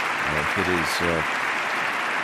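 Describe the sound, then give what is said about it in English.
Applause in the House chamber during President Obama's State of the Union address, as nearly everyone rises for remarks honoring servicemen, servicewomen and diplomats; dense, sustained clapping runs throughout, with a voice speaking over it at first. “everyone in the House chamber, I think, has risen, just about everyone, applauding the President's remarks about American servicemen and women and American diplomats,”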